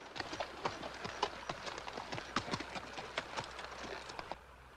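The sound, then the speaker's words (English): Hooves clip-clop steadily as a horse is led along on foot, with many quick, evenly spaced strikes at a walking pace, fairly faint, before they stop near the end. “leads his horse along by foot”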